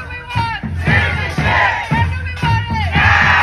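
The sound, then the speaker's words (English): Loud, rhythmic chanting from a crowd of immigration advocates with locked arms outside a federal appeals court in New Orleans. Many voices shout in unison, repeating a short phrase in steady cycles. “With locked arms, immigration advocates chanted loudly outside a federal appeals court in New Orleans”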